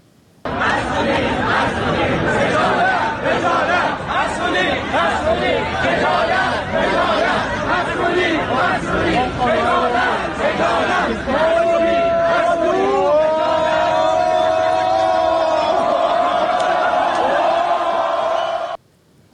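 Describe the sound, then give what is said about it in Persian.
Students at Amirkabir (Polytechnic) University march in protest over the cafeteria's food and newly paid services. A crowd chants and shouts loudly and continuously, with rhythmic calls and individual raised voices. “همچنین دانشجویان دانشگاه امیرکبیر یا پلی‌تکنیک هم در اعتراض به وضعیت قضای سلف دانشگاه و پولی شدن خدمات دست به تجمع اعتراض راهپیمایی زدن.”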